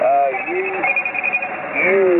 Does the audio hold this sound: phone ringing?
yes